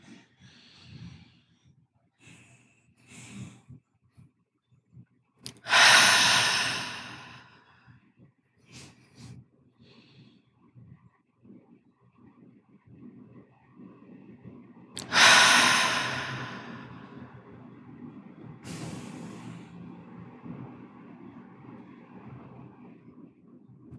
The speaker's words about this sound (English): take 3 deep cleansing breaths in through the nose and out through the mouth, at your own pace